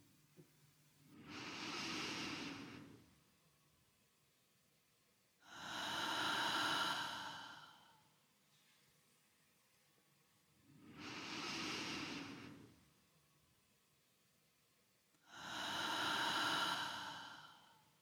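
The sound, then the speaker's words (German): Slow, deep breathing, drawn in through the nose during a guided relaxation: four long, soft, airy breaths, each about two seconds, evenly spaced with quiet pauses between them. “Wenn sich das gut anfühlt, folge den tiefen Atemzügen mit.”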